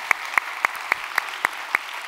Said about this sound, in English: If you would, put your hands together. Welcome them into our celebration here today.